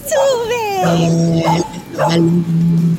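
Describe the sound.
Two dogs that escaped from their dog sitter yip and whimper in high, wavering, whining tones, several loud cries following one another with short breaks.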